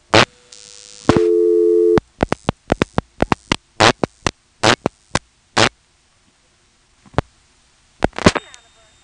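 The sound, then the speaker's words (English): Telephone switching tones from a call dialed through a tandem switch to a non-working number at the Mamie, North Carolina office: a steady tone, then a rapid string of short tone bursts, a quiet gap, and a final cluster of tones. “Then we'll dial 6 for tandem, 21 to reach the Mamie office, and then the last 3 digits of a non-working number, 413.”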